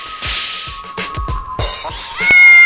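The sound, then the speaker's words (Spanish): A cat meows loudly in a few drawn-out cries in quick succession. The last cry is the longest and loudest. “Lárguese, gato. ¿No ve que es? Largue, gato”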